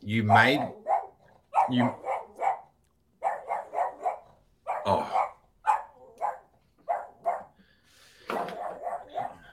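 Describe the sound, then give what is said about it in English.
A dog barks frantically at someone at the door, with many sharp barks in quick clusters separated by brief pauses, loud and agitated throughout. “there's somebody at my door and my dog is flipping the heck out.”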